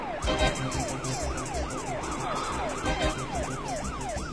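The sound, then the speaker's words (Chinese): A police car siren wails in steady, repeating up-and-down sweeps, about six cycles, with a low rumble of road traffic beneath and no voices. “你说后面的警车不是冲着我们来的吧？”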